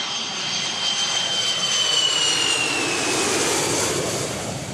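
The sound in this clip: An airplane in flight on the way to Australia gives a steady, broad jet-engine roar with a thin high whine above it, holding at an even loudness throughout with no voices.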